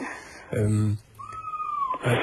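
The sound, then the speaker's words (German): A restless cat gives a thin, high meow or squeak that slides slightly downward, set between bursts of people talking. “Ich höre so ein Quietschen im Hintergrund. Was ist das? Ja, ich habe mir eine Katze besorgt. Ach, die Katze ist. Ja, die ist jetzt im Moment sehr unruhig jetzt hier.”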